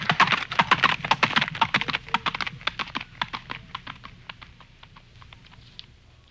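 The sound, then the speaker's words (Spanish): Rapid clip-clop of a horse's heavy trot, many quick hoof strikes in an uneven rhythm that grow steadily fainter toward the end. “Y se alejó con su trote pesado en dirección de la cantera.”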